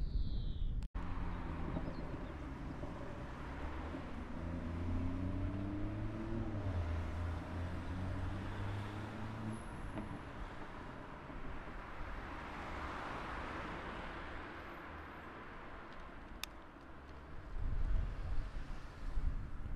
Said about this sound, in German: So hört es sich an, wenn man mit dem Fahrrad Detmold verlässt.